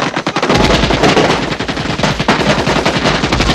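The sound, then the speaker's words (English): Loud, continuous machine-gun fire at a training target rattles on without a break, dense rapid shots packed together throughout. “Everyone dashes for their tents except Sean, who keeps firing.”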